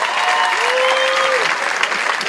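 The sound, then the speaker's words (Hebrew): An audience at a modern poetry reading applauds with steady, dense clapping that stays loud and even throughout. “איפה כפיים?”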